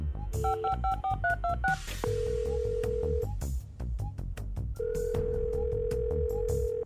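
Touch-tone phone dialing: a rapid run of several bright keypad beeps, then two long, steady ringback tones sound over a continuous low background bed.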